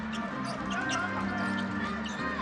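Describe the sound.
A basketball bounces as it is dribbled on a court during a game, the thuds set into a dense, steady wash of crowd noise.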